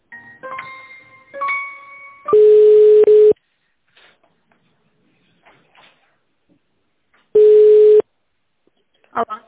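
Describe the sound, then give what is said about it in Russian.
Call transfer tones on an office telephone line while the caller waits on hold: two long, steady, mid-pitched beeps separated by several seconds of silence, following a brief stretch of voice at the start. “Одну секунду. Девушку зовут Татьяна. Сейчас я соединю.”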